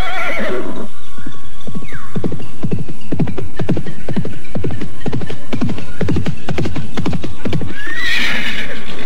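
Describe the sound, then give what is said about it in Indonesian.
A horse whinnies at the start and again at the end. Between the whinnies, loud hooves clip-clop in a steady run of many beats. “Benar-benar kuda yang hebat.”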